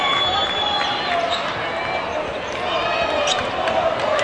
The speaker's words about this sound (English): And dribble the ball up the floor.